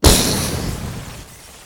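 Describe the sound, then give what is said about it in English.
Explosion sound effect for a robot's head blowing apart: a sudden loud burst, then a noisy, crackling tail that fades over about a second and drops lower near the end. “His head explodes, and it turns out he's a robot, and he's just not functioning properly anymore.”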